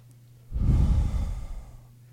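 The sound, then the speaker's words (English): A deep breath taken in through the nose and out through the mouth as a relaxation exercise: one slow, soft, airy rush that swells and fades over about a second and a half, heard alone over a faint steady hum. “deep breath through your nose and out your mouth”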